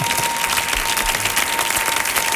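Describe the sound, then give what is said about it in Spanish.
An audience applauds a Cuban peasant-music singer with thick, sustained clapping that stays steady and full throughout. “Y no le vaya a dar un aplauso a este hombre.”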